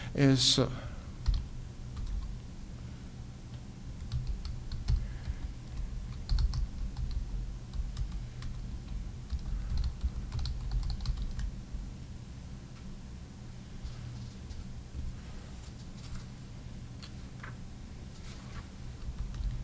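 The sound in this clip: Computer keyboard typing in a meeting while someone writes down wording: scattered soft key clicks come in irregular bursts, faint over a steady low hum, with no talking.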